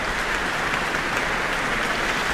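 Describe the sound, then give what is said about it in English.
Warm audience applause in Auckland after the New Zealand Symphony Orchestra's world premiere of an orchestral work, dense and even, with steady clapping throughout and no voices standing out. “And we have Leonie Holmes coming to the stage to receive her very warm applause from the Auckland audience tonight.”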